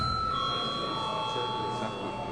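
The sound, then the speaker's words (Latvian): An electric bell rung in a parliament to call members to a vote, a steady, unbroken ringing that lasts the whole clip at an even level. “Un tagad lūdzu vēlreiz zvanu.”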